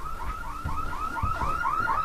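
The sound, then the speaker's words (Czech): A library anti-theft security gate alarm sounds a rapid, repeating electronic chirp. Many short, warbling tones follow one another without a break at a steady, fairly loud level, with no voices. “Teď, když by někdo prošel s nenačtenou knihou, tak by se měl ozvat alarm.”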